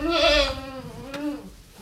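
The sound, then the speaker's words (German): Newborn goat kids bleating: one long, quavering, nasal bleat, loudest at the start, then fading and wavering in pitch before it tails off. “Die Ziegenlämmer sind niedlich und zutraulich. Sie kuscheln sich lieb aneinander, suchen noch wackelig stapfend nach der Mutterzitze.”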